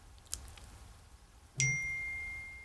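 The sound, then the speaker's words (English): A mobile phone's text message notification chime sounds once: a bright, clear ding that rings on and decays slowly over a quiet background. A faint tick comes shortly before it. “that is the sound of my husband texting me because I did not put my phone on silent”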